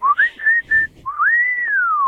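A person whistles a short tune: a few held, clear notes with brief breaks, then one long tone that glides upward and slowly falls away, fairly loud and alone.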